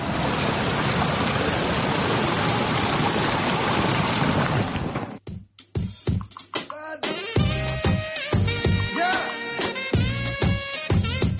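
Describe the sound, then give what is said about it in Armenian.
A stream of water flowing in Yerevan's Lovers' Park gives a steady, loud rushing wash for about five seconds, then cuts off abruptly and talk follows. “այգում նորից առուն է երգում”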